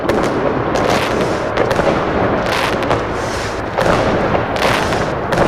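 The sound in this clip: New Year's Eve fireworks at Copenhagen City Hall Square: many loud bangs and sharp crackles burst in quick, overlapping succession, with a heavy rumbling wash between the strongest blasts and no talk.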